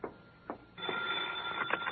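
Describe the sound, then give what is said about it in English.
A telephone bell rings in one continuous, narrowband burst lasting over a second. A couple of soft knocks come just before it. “Hey, how come you're answering the phone?”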